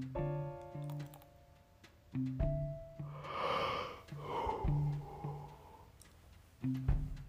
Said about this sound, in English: Excuse the yawn, folks.